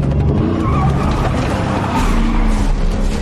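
A car speeds off with its tires skidding: a loud, continuous engine roar mixed with squealing rubber, sustained throughout without a break.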